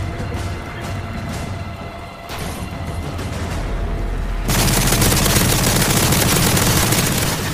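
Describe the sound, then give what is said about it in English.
Shotgun fire in a video game, a busy run of sharp blasts that swells about halfway through into a louder, continuous barrage of gunfire and booms lasting to the end. “I don't think a shotgun is gonna work on this. I've been trying for the last 5 minutes.”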